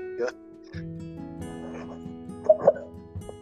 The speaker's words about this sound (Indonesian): imut anjing